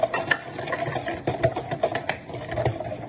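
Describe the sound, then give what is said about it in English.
Cream mixture whisked quickly in a bowl as liquid is slowly dribbled in, giving many rapid rhythmic scraping and clicking strokes at a fairly soft, steady level. “we're going to put this whole thing back in with the other cream. Again, slowly dribble, quickly whisk.”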